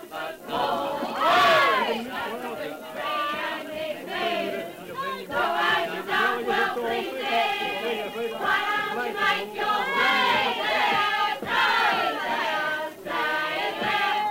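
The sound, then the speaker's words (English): Boisterous crowd celebrating VE Day in 1945 in a London pub in Wapping, beside the river. Many voices shout, cheer and sing together in a continuous, swelling din. “what you're hearing there is something pretty rare. It's a recording of a VE Day celebration in 1945 from a London pub in Wapping, just by the river.”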